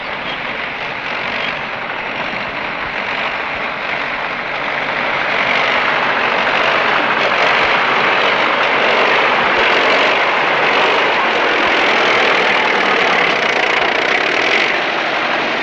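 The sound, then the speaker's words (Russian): A tractor engine arriving as a loud, dense, steady roar with a broad droning texture, swelling a little partway through and then holding level throughout, with no voices. “Вон он с трактора не слезает. Подъезжает Матвей на тракторе.”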